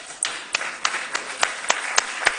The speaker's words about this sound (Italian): Voilà! Abbiamo il nostro modello, applausi.